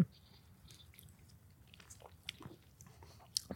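Soft biting and chewing on a creamy, lightly sweetened strawberry shortcake, with quiet, moist mouth sounds and a few slightly sharper bites near the end.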